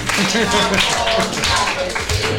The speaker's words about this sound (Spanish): ¡Bravo! ¡Un aplauso!